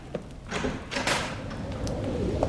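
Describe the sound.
A door is opened with a couple of muffled thuds and a broad rushing swish around the middle. The sounds sit over a steady low background noise.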